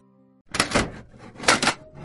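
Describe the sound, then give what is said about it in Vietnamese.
Heavy bangs as something strikes the door of a hut, arriving in two loud bursts after a moment of near silence. Each burst holds a couple of quick, sharp knocks. “Cửa lán bị vật gì đó đập vào, tiếng động đủ lớn để mọi người chúc tụng, chuyện trò trong lán tạm ngưng.”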